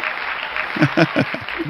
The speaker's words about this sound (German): ich habe den Applaus vermisst.